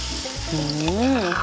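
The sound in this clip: Curry paste frying in oil in a pan makes a constant crackling sizzle that grows a bit louder partway through, while a voice speaks over it.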